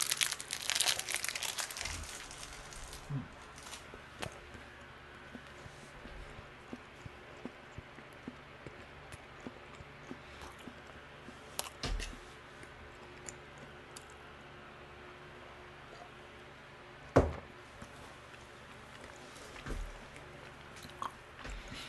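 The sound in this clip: Someone eats and crinkles a wrapper. Faint crinkling, chewing and sparse small clicks run throughout, with a sharper crackle near the end.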